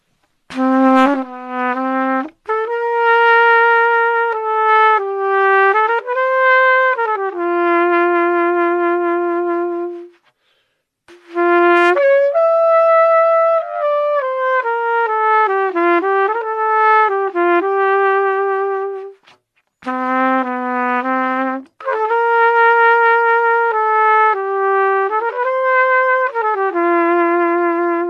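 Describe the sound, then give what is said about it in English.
Solo trumpet, played without tuning first, performs a jazz arrangement in a clear, bright tone: three long lyrical phrases of held and stepping notes, separated by two brief breaths, with no accompaniment. “That sound is just awesome, right? There's nothing that sounds like a trumpet.”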